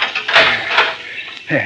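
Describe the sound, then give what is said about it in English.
Padlock being unlocked on a cemetery vault door at midnight: a few short metallic clanks and scraping rattles, with a sharper click near the end. “I'll have the padlock off in a minute.”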